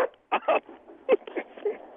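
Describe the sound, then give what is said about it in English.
Soft whimpers and short grunting yelps from a dog, several brief bursts in quick irregular succession, fairly quiet with no steady voice over them. “Wait, what kind of dog is that? Good thing this one's not on camera. What kind of dog is this?”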